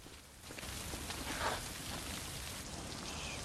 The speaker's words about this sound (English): She marches away through the rain.